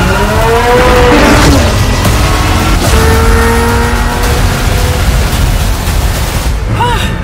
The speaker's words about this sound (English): The reason this car is one of the fastest on the planet is because of its twin turbocharged V8 engine